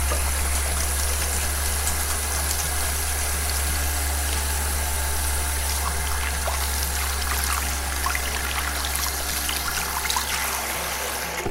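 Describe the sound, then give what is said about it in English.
Running tap water pours steadily while hands are washed, a constant trickling hiss over a low hum, without any talking. “But first, we should probably all take a moment to wash our hands.”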